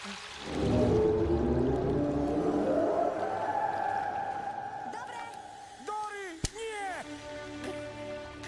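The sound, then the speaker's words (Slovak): A voice imitating whale speech, starting with a long, loud drawn-out moaning call, then several shorter warbling calls that bend up and down in pitch. “Nie, to sú veľrybčiny. Poveľrybsky nevieš. Ale viem.”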